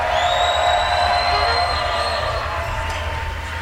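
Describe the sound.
A crowd cheers in the WWOZ Jazz Tent, a loud, steady roar of many voices that holds throughout and eases slightly toward the end.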